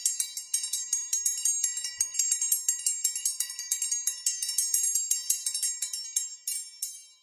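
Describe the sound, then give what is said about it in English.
Rapid ringing of a small bell topped with a cow picture: many bright, high-pitched strikes in a steady, quick run, heard alone, each ringing briefly before the next, trailing off at the end. “it's not in the way a cowbell would sound. It's an actual bell with just like a weird picture of a cow on top.”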